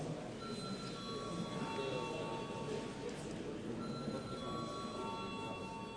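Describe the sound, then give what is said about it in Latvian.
A bell rung in parliament to call a vote: a faint, steady ringing tone sounds in two stretches with a short gap between them, over a low background hum. “Lūdzu zvanu.”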